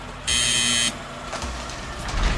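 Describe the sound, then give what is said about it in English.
Electronic gate opening for a Studebaker car: a loud, steady electric buzz lasting about half a second, followed by a low, uneven rumble. “The gate slowly opened to make way for my Studebaker.”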